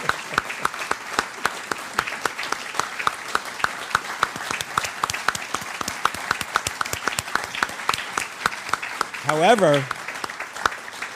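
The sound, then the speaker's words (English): An audience applauds a veteran, many sharp hand claps forming a steady, moderately loud patter, with a voice briefly rising over the clapping near the end. “We owe him applause for his service.”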